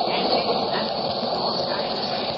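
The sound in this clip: A train carriage rolling along the rails makes a steady, loud rushing hiss and rumble, continuous and even, with no distinct clacks.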